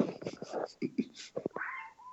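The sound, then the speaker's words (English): A house cat meows a few times after being left alone all weekend, the last cry drawn out and tonal, the calls spaced irregularly with short gaps. “My cat agrees. Been gone all weekend, so she's being extra annoying.”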